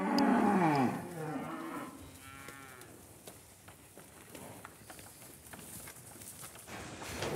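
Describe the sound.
A cattle herd on a pasture: a loud, low moo opens, followed by fainter bovine calls over steady shuffling and scattered hoof clatter.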